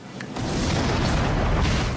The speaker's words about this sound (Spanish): El helicóptero explota.